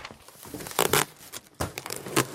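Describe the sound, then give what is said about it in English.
Microphones are unboxed with rustling and crinkling of packaging. A few short, scratchy bursts of paper and plastic handling are separated by brief quiet gaps, all fairly faint. “Can you unbox the mics and I'll just make some proper coffee and read the instructions.”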